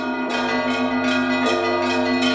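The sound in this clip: Church bells pealing during an Orthodox procession with banners and icons around a cathedral, a bright, ringing clang of strokes struck at a steady rhythm over a sustained metallic hum.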